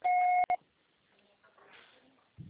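Electronic telephone tones from a call that goes unanswered: a loud, steady dual-pitched tone of about half a second, then a brief beep, followed by faint low background noise.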